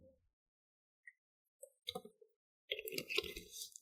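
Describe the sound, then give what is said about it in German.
A sip of a drink: a few faint, soft mouth and swallowing noises separated by silence, then a brief breathy rustle at the end. “Ich muss einmal kurz einen Schluck trinken. Moment.”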